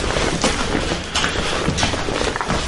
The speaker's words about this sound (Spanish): para subir por las escaleras a, a, la planta superior. Voy subiendo.